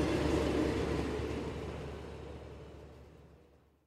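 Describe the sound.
A TGV high-speed train pulling away from the station: a broad, steady rumble that is loud at first and slowly fades out over a few seconds.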